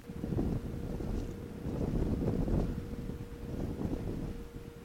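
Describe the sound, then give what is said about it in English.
Buffeting wind noise while riding in an open-top MG car with the roof down: a steady low roar that swells in gusts, with a constant low tone beneath it. “So, I've come out for a ride in my MG today. I've had the roof down, I've put my sunblock on.”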